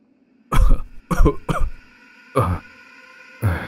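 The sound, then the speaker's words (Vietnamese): An old man coughs violently, five hard, hacking bursts, three close together and then two more spaced apart, loud against near silence. “Ông lão ho sặc sụa vài tiếng”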